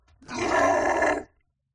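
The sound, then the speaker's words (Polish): A human voice imitates the roar of a chaos beast during a turn-based game: one loud, rough, growling roar lasting about a second that swells, holds, then cuts off abruptly into silence. “On jeszcze tylko wydał z siebie ryk”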